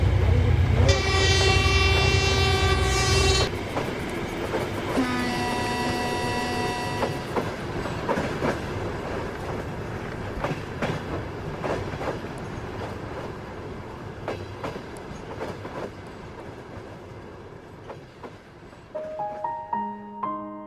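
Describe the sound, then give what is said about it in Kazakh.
A train leaves a station platform from track one. Its horn sounds two loud blasts, a long one and then a shorter one, followed by a steady rolling rumble and the rhythmic clatter of wheels. “с 1 пути отправляется поезд номер 6506. Будьте внимательны и осторожны.”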